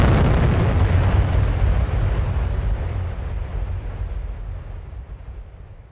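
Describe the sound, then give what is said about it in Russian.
A detonating battery explodes in a loud, broad blast that hits at once, then rumbles and slowly fades over several seconds, with no voices. “Следом пришла и взрывная волна от детонировавшего аккумулятора.”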